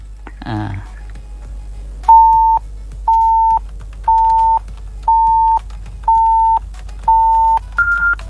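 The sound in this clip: Telephone call-connecting beeps: six identical steady mid-pitched tones spaced about a second apart, followed by a final higher-pitched beep, each clean and loud over a faint low hum, preceded by a short rustling burst.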